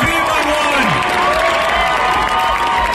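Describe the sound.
A concert audience at the Primavera Sound festival cheers with a loud, continuous crowd roar. Whoops and high-pitched shouts rise above it throughout.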